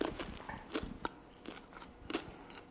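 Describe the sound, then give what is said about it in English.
A green M&M candy is bitten and chewed, giving several crisp, crunchy cracks in an uneven rhythm, fairly quiet and alone. “So I have this green candy here, and I taste it.”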